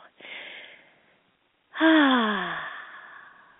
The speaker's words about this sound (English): That's my Happy New Year deep breath.